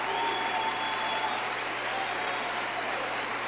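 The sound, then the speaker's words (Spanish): Loud, sustained applause from an audience at a church service: dense, steady clapping that fills the whole stretch without a break or a lull. “Ahora, un aplauso fuerte, después le digo algo.”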